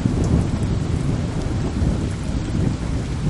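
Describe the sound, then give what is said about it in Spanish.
Steady rainfall hisses continuously, dense and loud, with a heavy low rumble running underneath throughout. “Luego empezó a llover.”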